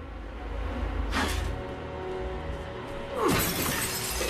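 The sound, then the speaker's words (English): A sledgehammer smashes the lights on a dressing table mirror, making two sharp glass-shattering crashes. The second crash is louder, with a longer tinkling spray of breaking glass, over a faint steady hum. “Meg smashes her dressing table mirror lights”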